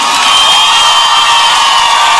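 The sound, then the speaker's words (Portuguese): Crowd noise with cheering and whoops on a country music radio program, a loud, dense, continuous roar with no distinct breaks. “aplauso com barulho.”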